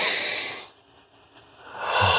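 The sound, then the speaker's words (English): Breath sounds during a joyful breathing exercise: a breathy rush fades out, a short quiet gap follows, then another breath swells in, airy and fairly loud, with no talking. “He says, now inhale with a quality of joy. Ooh. And just, you know, I put a big smile on my face and I inhale.”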